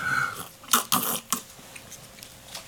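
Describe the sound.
Chewing during breakfast comes through as a few faint, crunchy bites in quick succession, followed by softer, smaller mouth sounds.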